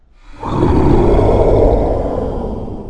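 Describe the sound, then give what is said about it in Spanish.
Monsters roaring: a loud, rough, sustained roar bursts in after a brief silence, holds for about two seconds, then slowly fades. “Ellos rugieron sus rugidos terribles.”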